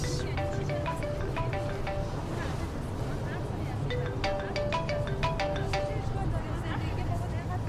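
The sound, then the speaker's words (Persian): A mobile phone ringtone for an incoming call plays a melody of short, bright electronic notes in two repeating bursts. It sounds over voices and a steady rumbling background. “الو سلام. آره منم دیگه، به من زنگ زدی.”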